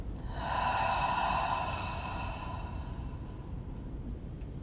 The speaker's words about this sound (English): And take a deep breath in and deep breath out.